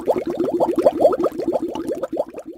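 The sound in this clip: Water is poured into a glass at the dinner table, making a rapid, even run of burbling glugs at a steady rhythm and moderate loudness.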